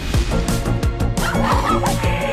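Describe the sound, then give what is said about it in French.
Chickens cluck in a courtyard, giving a quick run of repeated, loud throaty calls with short gaps between them. “Il y a des poulets dans la cour.”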